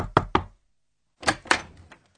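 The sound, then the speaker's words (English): Knocking at a door, delivered as a quick run of about three sharp raps, then a pause and a second, looser group of knocks. “he had just got off the boat and was wondering what it was like outside when who should come knocking at the door but Eeyore.”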